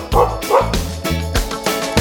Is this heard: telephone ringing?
no